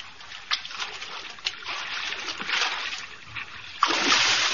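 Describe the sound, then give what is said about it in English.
A man swimming sends up water splashes and slosh, irregular strokes and splatters at moderate level, rising to a louder, sustained splash near the end. “Not so godlike our Caesar when he swims.”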